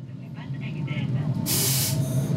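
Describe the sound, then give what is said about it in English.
The interior of a train heading north to Rabat, Morocco, carries a steady low rumble throughout. A loud burst of rushing hiss rises midway and fades, with faint voices audible early on. “I'm now on a train heading north to the capital, Rabat, where a local association is helping fund small businesses, and among them are enterprises set up by sub-Saharan Africans.”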